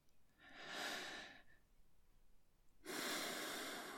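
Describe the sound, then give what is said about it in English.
A deep breath, first drawn in as a soft, airy hiss and then let out as a second, louder breathy rush. Quiet overall, with no talking. “take a breath.”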